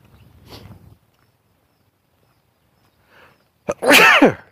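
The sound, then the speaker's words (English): A single loud human sneeze after a near-silent pause. A short sharp catch comes just before the forceful, bright burst. “a sneeze, I guess.”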